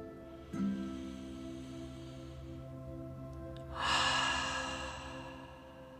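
Deep meditative breathing, drawn in through the nose and let out through the mouth, over soft sustained background tones; a long, airy, breathy rush swells in the latter half and slowly fades.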